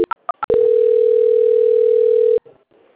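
A telephone tone plays while a call is being transferred: four short beeps, then one long steady mid-pitched tone that holds for about two seconds and stops abruptly, leaving faint line noise.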